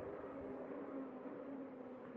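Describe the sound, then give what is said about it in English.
A car driving around outside during a car demonstration, heard from a distance: a faint, steady engine drone with a broad, even hum and no distinct pass-bys. “Guys, I don't think that is a motorcycle, man. I think that is some sort of car demonstration. It sounds like it.”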